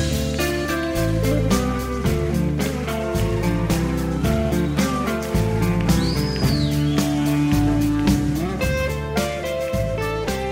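A 1975 live rock concert recording of a 25-year-old guitarist performing: a loud, steady band with deep bass and drum hits, plus a bright high guitar line that swoops up and back down midway.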